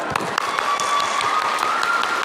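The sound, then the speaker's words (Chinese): Audience applause congratulating performers after a show: dense, continuous clapping at an even, loud level throughout, with many overlapping sharp claps and no speech. “给于氏鼓鼓掌”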